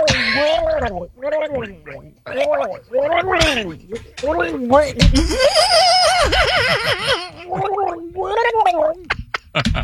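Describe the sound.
A man's voice imitates shark mating noises with loud, repeated gargling and warbling bursts, mixed with giggling.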